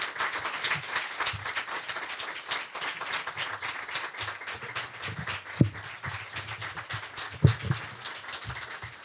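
Audience applause welcoming a professor on stage: steady, dense clapping from many hands that holds through the whole stretch, with a few sharper individual claps standing out near the end.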